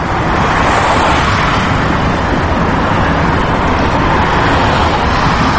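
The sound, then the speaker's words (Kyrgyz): Heavy traffic on a busy Moscow city street: a loud, dense, continuous roar of vehicles with no break and no talk. “Кайрадан кыйма чийме унаага толгон Москванын чоң көчөсүнө келсек”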